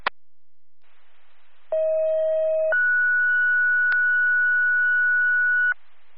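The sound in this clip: Dispatch alert tones over a radio channel calling for an emergency response: a sharp click, faint static, then a steady lower tone of about one second followed by a longer, higher steady tone of about three seconds.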